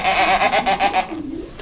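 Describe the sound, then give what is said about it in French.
Goats bleating on a farm at feeding time, a quavering, pulsing bleat with rapid wavering pitch, followed by a shorter, lower call. “Là, je suis capable de donner à manger aux chèvres.”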